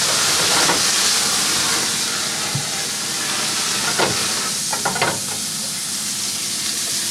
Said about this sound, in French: Une fois que le feu est coupé, je retourne les Saint-Jacques dans le jus de cuisson qui reste.